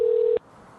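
A telephone ring tone on a call to a Comfort Inn: one short, steady, mid-pitched electronic tone that stops abruptly, leaving faint line hiss.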